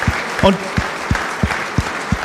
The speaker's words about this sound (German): Ein großer Applaus mal für das Team hinter dem Team.